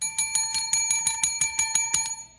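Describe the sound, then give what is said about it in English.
A bicycle bell rings in a quick, steady series of many bright metallic dings, high and clear, with no voices. “Stupid bell.”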